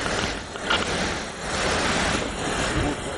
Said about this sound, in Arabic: يا خبر، المركب بتهز جامد كده ليه؟